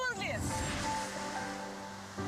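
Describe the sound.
Ocean waves on a Costa Rica coast give a steady surf wash. Over it a voice and some whistling tones can be heard.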